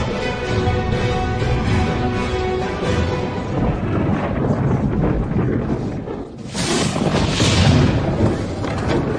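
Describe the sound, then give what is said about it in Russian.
Thunder rumbles over a battle scene in a film as black storm clouds darken the field and lightning strikes near mounted warriors. The deep, loud roar is continuous and dense, swelling to a brighter surge near the end. “Молния разрывает небо. Воины Джамухи и Даргутая в панике. Они мечутся, спрыгивают с коней, щитами укрываются от молнии грома.”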